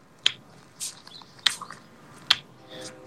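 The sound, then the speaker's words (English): Powerful tongue clicks used for echolocation: three sharp, loud, bright clicks spaced about a second apart, with fainter mouth sounds between them against near silence. “a click like that, I mean, we're talking quite possibly 100 decibels, maybe 110 decibels can wipe out a microphone like this.”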